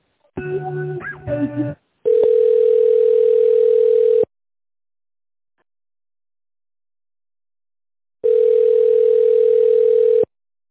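Telephone tones while a call is being transferred: a brief burst of mixed electronic beeps, then two long, steady mid-pitched ringing tones separated by several seconds of silence, with no talk.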